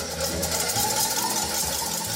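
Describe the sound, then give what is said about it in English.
An electric mixer beats eggs with a steady, even motor whir and rattle that holds at a constant level throughout, with no talk over it. “So while the eggs are being beaten in the mixer”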